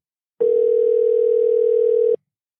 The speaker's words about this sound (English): Let me make a phone call to Europe. And I hope I can get through.